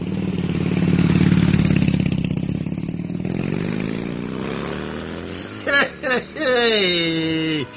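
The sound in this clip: A smoky motorcycle engine with a sidecar rumbles loudly and roughly throughout, and brief voice sounds break in near the end.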